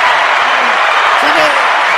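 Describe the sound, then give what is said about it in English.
Audience applause, a round of clapping, fills the whole clip as a dense, loud, steady wash with a voice talking faintly over it. “Let's give him a round of applause for trying to say how to do his vocals.”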